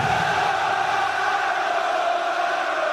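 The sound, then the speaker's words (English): Some 70,000 Roma football supporters roar and chant together at Stadio Olimpico in Rome, a dense, sustained wall of massed voices with a steady, droning tone and no breaks. “That's the sound of 70,000 fans at the Stadio Olimpico in Rome. Roma, Roma, Roma. They're cheering one of the world's most famous soccer teams, AC Roma.”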